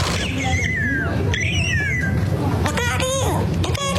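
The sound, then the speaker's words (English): A bird call of high whistled notes that sweep downward comes in a few separate phrases over constant loud background noise. The later notes are shorter and more broken up. “You hear that? It sounds like a bird saying, look out here, look out here.”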